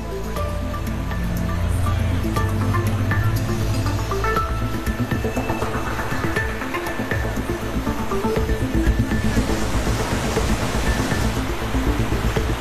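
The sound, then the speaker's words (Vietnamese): Water rushes nonstop through opened floodgates, a broad, continuous roar and wash that holds steady at a fairly loud level, swelling slightly toward the end, with no voices. “Các cửa xả lũ đã được mở. Chúng được mở trong 8 tuần. Nước chảy không ngừng.”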